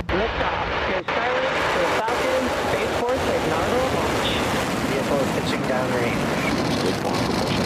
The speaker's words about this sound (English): And we have just had liftoff of our Falcon 9 vehicle carrying our Starlink payload.